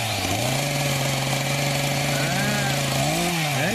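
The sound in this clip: A chainsaw cutting down a pine tree runs as a loud, steady buzzing engine drone. The pitch climbs early on, holds level, then wavers and revs higher near the end.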